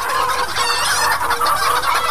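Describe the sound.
Chickens cluck continuously in a dense, busy chorus from a large poultry flock, steady and fairly loud with no talk.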